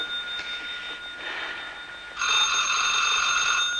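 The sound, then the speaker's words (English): A telephone rings at night while people sleep, with faint ringing pulses at first. Then a louder, bright, sustained ring starts and continues to the end, with no talk. “She bolts upright as Clem lifts the phone receiver.”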